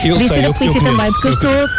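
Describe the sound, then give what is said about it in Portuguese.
The siren of a passing ambulance climbs steadily in pitch while a person talks loudly over it. “Vai a passar uma ambulância. Por acaso, não sei se é uma ambulância.”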